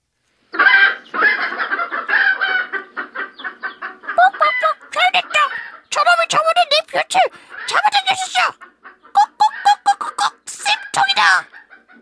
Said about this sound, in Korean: 암탉들이 계속 소리를 질러댔다.